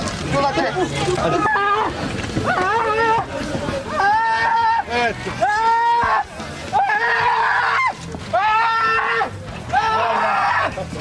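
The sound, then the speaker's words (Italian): Migrants shouting and screaming: loud, drawn-out cries repeat again and again and overlap continuously, with other voices and general babble underneath. “sentiamo un po' di grida, i migranti che urlano.”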